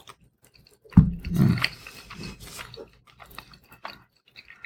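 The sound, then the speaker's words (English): Chewing a bite of Cracker Barrel cheddar cheese: one firm bite followed by a few soft, moist chewing sounds that quickly fade, with no talk. “This is the Cracker Barrel cheddar. Cracker Barrel cheddar cheese. I'm going to try a taste of that.”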